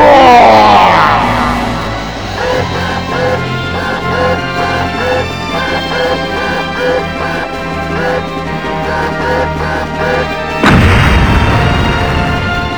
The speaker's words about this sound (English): Ultimate final boss magical attack! A 15-minute long FMV that causes all the planets in the universe to smash into the party!